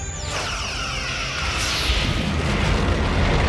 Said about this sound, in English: Must have had a self-destruct. The ship blows up